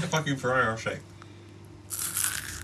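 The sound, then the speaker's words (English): Crunching of a Ferrero Rocher's crispy wafer being bitten into: a short, crackly burst of crunch near the end, following a brief stretch of talk and a quiet pause. “So eat the fucking Ferrero Rocher. That sounded good. Even for me, that sounded good. Do you hear the crispiness of the wafer?”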